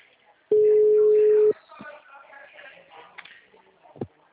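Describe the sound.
A telephone tone on a call that is not connecting: one steady, loud beep lasting about a second, followed by faint shuffling handling noise and a brief click.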